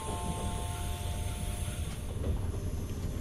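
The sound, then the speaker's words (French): A train pulling into Nîmes station, its terminus, gives a steady low rumble with sustained high whining tones, continuous throughout. “Mesdames et messieurs, notre train arrive en gare de Nîmes.”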